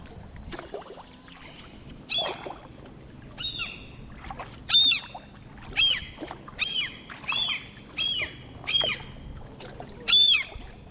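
Birds call near their nest as a kayaker paddles past, giving a steady series of many sharp, high squawking calls over faint low background noise.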